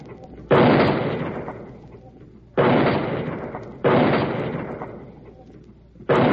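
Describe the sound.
Mortar shells exploding in battle: four heavy blasts at uneven intervals, each a sharp boom that fades into a long, decaying rumble.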